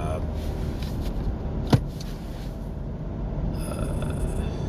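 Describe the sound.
A car drives on the road to Sydney, its steady low road rumble running throughout, broken once by a single sharp click partway through.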